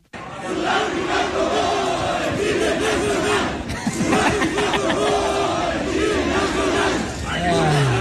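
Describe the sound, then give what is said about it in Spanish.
A large crowd chants in unison at Estadio Ciudad de México after a match, a loud, sustained roar of many voices with a brief dip near the middle before the chanting surges again. “Esto se escuchó en el Estadio Ciudad de México, posterior al encuentro.”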